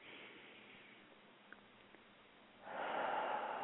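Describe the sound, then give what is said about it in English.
A deep cleansing breath in a guided breathing exercise: soft airy breath noise at the start, a quiet stretch, then a louder, rushing breath that fills the last second. “We breathe in that beautiful life force energy with this last cleansing breath.”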